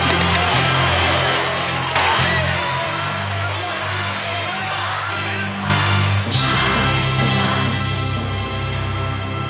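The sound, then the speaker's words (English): A game-show style win sound effect plays with a crowd cheering, a dense, loud wash of cheers and whoops that runs the whole time, with a few sharper bursts along the way. “But you know what I'll do? I'll play you the new I Win the Game sound. Much faster.”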